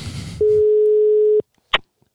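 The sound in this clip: A single steady telephone tone sounds while a call is being placed. It holds one even pitch for about a second, then stops, and a brief click follows.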